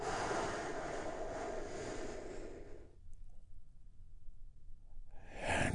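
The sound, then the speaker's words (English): A big, deep breath taken during a guided relaxation exercise: a long, airy rush of breath for about three seconds, then a quieter stretch, and another breath swells at the very end. “taking a big, deep, healing breath together. Here we go.”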